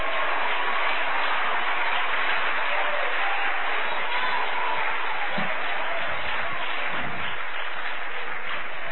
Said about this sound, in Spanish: Aleluya, denle un aplauso a Cristo, que él se lo merece.